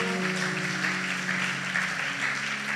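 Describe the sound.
An audience applauds during a church service, with steady, dense clapping throughout and a low sustained tone beneath it.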